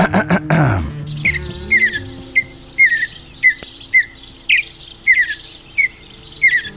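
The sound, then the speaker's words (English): A mountain bluebird sings a run of short, high, squeaky chirps repeated at a fairly steady pace, after a brief burst of clicking noise at the start. “The official state bird is the mountain bluebird. It's blue, and its song sounds a little like this.”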